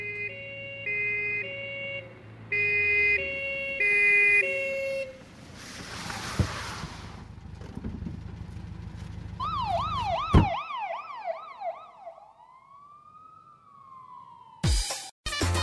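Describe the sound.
A wailing police siren sounds within a playful police-themed song: plucky electronic tones give way to a siren whose pitch sweeps up and down repeatedly, ending in a long gliding tone before sharp musical hits.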